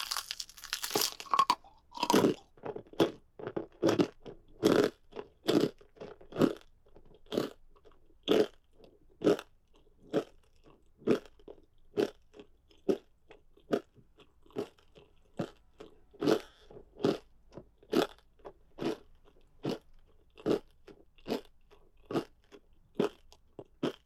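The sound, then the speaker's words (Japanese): Crunchy chewing and biting while eating an ankle: many sharp, crisp crunches, packed closely at first, then settling into a steady rhythm with short gaps, fairly faint and heard alone. “足首ちょっと食べづらいって思ったけど、こうやって外せば問題ないわね。”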